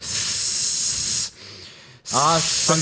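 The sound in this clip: A voice imitates someone's forceful, pump-like exhaling at the gym. A long, loud hissing breath is followed by a brief quieter gap, then another hiss mixed with short voiced tones.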